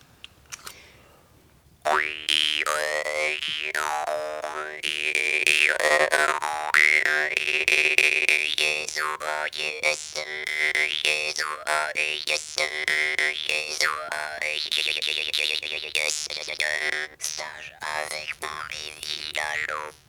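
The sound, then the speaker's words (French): Twanging jaw harp (guimbarde) from Asia plays a steady buzzing drone whose bright overtones sweep up and down in a wah-like way, continuing without pause for about eighteen seconds after a short quiet start. “Cette guimbarde, oui, elle vient d'où? Elle vient d'Asie.”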